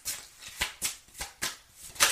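Tarot cards being shuffled during a card reading, a few soft papery riffs and snaps in an uneven rhythm, with no voices over them.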